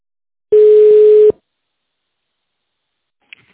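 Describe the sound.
A single steady electronic beep sounds on an automated telephone line, lasting under a second and then cutting off sharply, followed by silence and a brief faint click.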